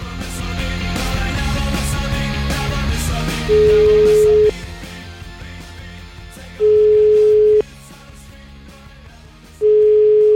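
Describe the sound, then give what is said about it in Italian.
Ringback tone of an outgoing telephone call, three steady, mid-pitched beeps of about a second each, evenly spaced, over background music. “Sentiamo questo avvocato che mi sembra si chiama Cianci, chiamiamo, dai.”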